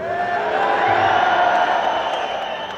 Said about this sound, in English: How many say boo Mario? How many say yay Mario? How many say who's Mario?